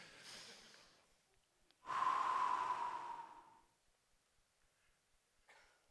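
A person takes a deep breath and blows it out in one long, forceful exhale. The breathy rush is loud at first, then fades over about a second and a half. Softer breathing is heard before and after.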